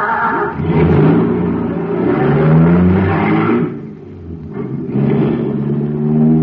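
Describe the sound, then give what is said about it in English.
A supercharged car engine running on high-grade fuel revs loudly and continuously, a deep rumbling roar that swells, dips briefly near the end, then surges again. No voices. “Wow, there's a motor that's supercharged. Got super fuel in it, that's why.”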